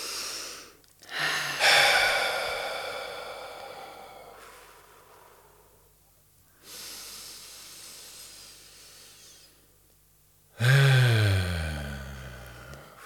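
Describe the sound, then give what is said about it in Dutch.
A person takes several deep breaths, each a long, loud, airy rush of air separated by short quiet pauses. “dus dan neem je nog een paar keer wat ruimer adem.”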